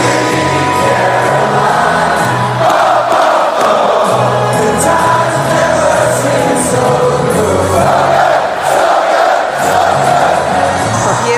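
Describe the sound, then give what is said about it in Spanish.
A football crowd sings a song along in unison with no backing music, a loud, continuous wall of massed voices that holds steady throughout. “en el siguiente partido el público la cantaba incluso sin la música de fondo. Incluso añadían algo más en la letra. Escucha qué añadían.”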